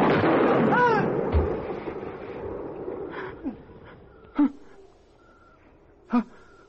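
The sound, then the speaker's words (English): Gunshots ring out in a staged drama scene as a young man fires after warning he would shoot. A few sharp, loud bangs stand out against a quiet background, with the last two cracks clearly separated. “I told you I'd shoot. I told you.”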